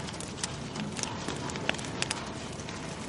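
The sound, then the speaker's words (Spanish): Newspaper burns in a bonfire, giving a steady rushing hiss of flame broken by scattered sharp crackles and small pops. “Salma introduce el periódico en la hoguera.”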